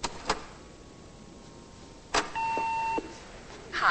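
Telephone sounds while a woman dials and checks her messages: a few sharp clicks, then a steady electronic beep tone lasting under a second. Another click follows, and a brief chirp comes at the end.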